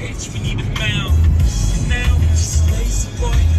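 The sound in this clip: A car being driven home gives a steady low engine rumble that swells and eases slightly, with a voice talking over it.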